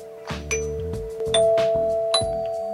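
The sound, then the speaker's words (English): A Big Ben doorbell plays a sequence of clear, ringing chime notes that step between pitches and sustain over one another, repeated as a short melodic pattern. “This is a Big Ben doorbell sound, apparently.”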